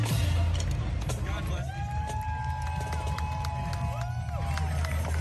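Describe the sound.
Crowd at a Taiwanese-American Independence Day parade in the United States: a dense, steady wash of crowd noise and voices, with a long sustained tonal note running across it.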